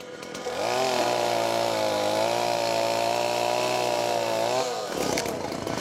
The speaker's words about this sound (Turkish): dalı yavaş yavaş kesmeye başlayacak. Aa, evet. Kesiyorum.